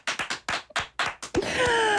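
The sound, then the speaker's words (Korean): Hands clapping: several sharp, separate claps in an uneven rhythm, then a denser continuous sound takes over. “박수 치고.”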